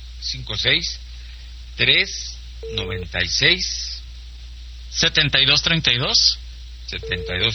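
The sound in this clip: A telephone rings on a radio call-in line: two short, steady tones sound some seconds apart, mixed in with ongoing talk.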